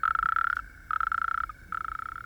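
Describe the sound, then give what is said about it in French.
A toad croaks in three buzzy, high, pulsing trills separated by short pauses, each trill steady in pitch and fairly faint. “Là, un drôle de crapaud coasse.”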